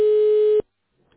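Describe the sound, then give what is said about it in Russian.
Single steady electronic telephone tone played while a call is transferred to a Europlan company employee. The tone is loud and even, cuts off abruptly after a fraction of a second, and near silence follows. “Ваш звонок переводится на сотрудника компании «Европлан».”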